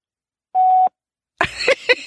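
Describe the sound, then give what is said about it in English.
A voicemail beep from an unanswered phone call: a single steady, clear mid-pitched tone lasting about a third of a second, followed by a short gap and then talking. “That's her voicemail. Of course she didn't answer.”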